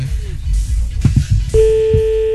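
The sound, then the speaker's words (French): A telephone ringback tone sounds while a caller waits for an answer. Muffled low sounds come first, then a steady, unbroken tone starts partway through and holds to the end. “le téléphone il sonne depuis 5 minutes”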